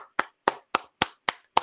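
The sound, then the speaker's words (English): Six slow handclaps fall at an even, deliberate pace, each one sharp and short, with silence between them. “our audience applauses.”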